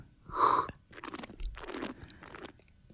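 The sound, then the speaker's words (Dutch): Coffee being slurped during tasting: one loud, airy slurp, followed by a few softer noisy swishes and sips. “Ik ga hem nu proeven. Sorry voor het geslurp.”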